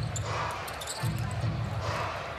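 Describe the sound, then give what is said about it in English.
A basketball is dribbled on a court during a pro game between two teams, with repeated bounces under steady crowd noise and a commentator's voice. “left-hand dribble by Chris Paul”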